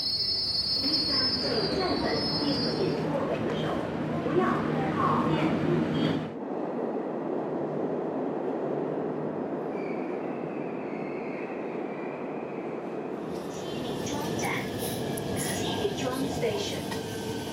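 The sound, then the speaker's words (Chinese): A subway train bound for Anheqiao North pulls into the station: a steady loud rumble of wheels on rails, with shrill high-pitched wheel squeal at the start and again near the end. “开往安河桥北及沿途各站的列车即将进站。”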